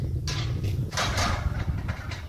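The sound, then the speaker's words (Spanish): The door of the Santuario de Nuestra Señora de Oro is opened, making a few scraping, rattling bursts over a low rumbling background. “Hala, abierta la puerta.”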